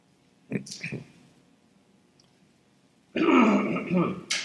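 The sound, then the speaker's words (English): Throat clearing in two rough bouts: a short pair of hacking coughs, then after a quiet pause a longer, louder, harsher rasping clear. “I've got to like work through a few throat clearings here.”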